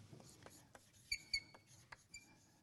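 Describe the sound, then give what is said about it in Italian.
Faint scratching and tapping of someone writing out the word 'teocrazia', a few soft strokes with two brief squeaky marks in the middle, quiet throughout. “Qui ci scrivo teocrazia.”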